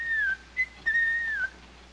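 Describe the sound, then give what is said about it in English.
Whistling from a person hiking along a path through a valley: a short, soft melodic phrase of a few clear, sustained notes, ending on a gentle downward glide, with no talk. “The next morning, Steffel whistles as the two friends hike along a path through a valley.”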